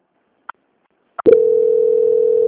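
A telephone call transfer tone: two brief clicks, then a loud, steady mid-pitched tone that holds unbroken to the end.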